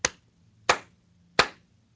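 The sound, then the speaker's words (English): Three sharp hand claps made to sync a recording, evenly spaced about two-thirds of a second apart; each is a loud, crisp smack with a short decay, with no talk around them. “Actually, I'm going to do a clap to sync this up.”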